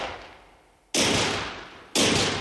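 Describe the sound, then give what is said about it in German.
Gunfire from a shootout in a German radio drama: two sudden, loud, sharp blasts about a second apart, each leaving a long decaying tail, following a softer fading noise. “Die Schießerei beginnt.”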